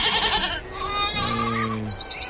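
A goat bleats on a farm at milking time, giving one drawn-out, wavering bleat over a steady background, with small birds chirping high above it.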